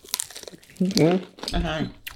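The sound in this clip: A crunchy bite into a Los Calientes snack, with brief crinkling at the start, followed by two hummed, approving murmurs from the person eating.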